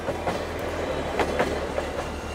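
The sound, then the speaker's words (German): A train runs on rails through a gorge in Kyoto: a steady low rumble with repeated rhythmic clicks of wheels over rail joints. “Der Zug hält eigens an, um einen Blick darauf werfen zu können.”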